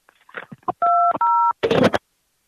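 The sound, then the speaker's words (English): Two steady touch-tone beeps as a telephone number is dialed to return a missed call, each held briefly in quick succession, after a few short sounds and before a loud, noisy burst. “I had a missed call from this number, and I'm returning the phone call.”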